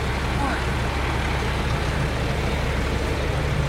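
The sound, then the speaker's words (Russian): A red lorry reverses slowly, producing a steady, low engine rumble that holds at an even level throughout. “Фура медленно задним ходом подъехала к Тому.”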